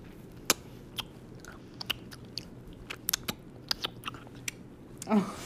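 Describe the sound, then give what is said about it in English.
People bite and chew crunchy food, with many sharp, crisp crunches at an irregular rhythm over a quiet background. “We're each about to down about 300 calories. And all you guys are going to hear it.”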